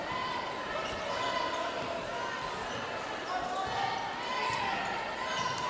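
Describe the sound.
A basketball is dribbled during a high school game, with repeated bounces against a steady wash of gym noise and background talk.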